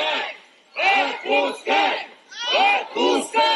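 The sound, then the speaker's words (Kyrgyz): A crowd of about 200 supporters outside a police station shouts in unison, demanding a detainee's release in a steady rhythmic chant of many loud, evenly spaced bursts. “Ал арада полиция бөлүмүнө 200 адам топтолуп, Навальныйдын тарапташтары боштондук кое бер деп кыйкырып турушту.”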